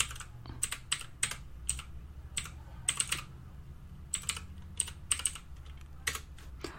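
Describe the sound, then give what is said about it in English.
Typing on a computer keyboard, with many quick, irregular keystroke clicks in short bursts and brief pauses, clear over a low steady hum with no voices. “Let me see if I can type it.”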